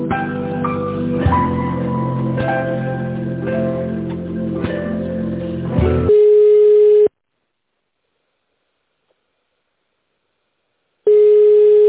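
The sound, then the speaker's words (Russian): A telephone ringing tone during a call transfer, following hold music: a steady beep, several seconds of silence, then a second beep. “Одну секунду, сейчас я соединю с тендерным отделом, с Татьяной.”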